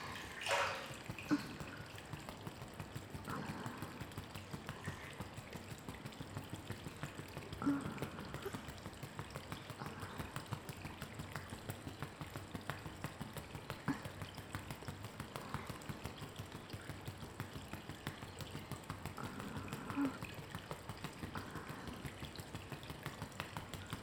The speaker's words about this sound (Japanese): 指を使って、トントンします。コリを優しくほぐすように、細かいところにも振動が伝わるように。